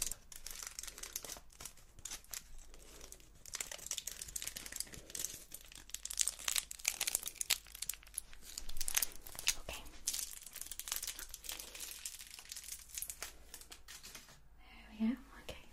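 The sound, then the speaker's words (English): Hair foil crinkling in a salon roleplay: many crisp, irregular crackles and rustles that keep on throughout, with soft whispering voices under them. “take the foil. Foil.”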